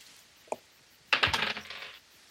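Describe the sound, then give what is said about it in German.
Dice rattle across a table during a tabletop role-playing game: a single soft click, then a loud burst of many quick, bright clattering knocks lasting about a second before settling into quiet. “Okay, dann würfel ich. Würfel du.”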